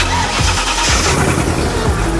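A 4x4 with a naturally aspirated V8 petrol engine of around 350 horsepower starts up, giving a loud, steady low rumble with a few brief pulses running through it and no talk.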